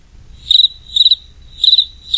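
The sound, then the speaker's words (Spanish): A large cricket chirps by rubbing its wings. Four high, bright trilled chirps come at a steady pace, each a rapid burst of tiny pulses, loud and alone over a faint low hum. “¡Bienvenido!, le cantó un grillo grande frotando las alas.”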